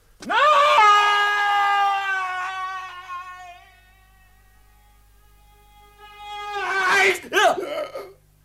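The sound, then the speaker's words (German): A man screams loud and long in a radio drama, holding a strained cry for a few seconds before it trails off. After a pause comes a shorter, wavering, pained vocal burst. “warum schreit ihr plötzlich?”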